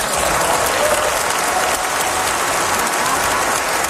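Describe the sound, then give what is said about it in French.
Sustained applause from members of the European Parliament giving a standing ovation: dense, even clapping that stays loud and steady throughout without breaks. “Maud Carney a eu droit à une ovation des députés du Parlement européen”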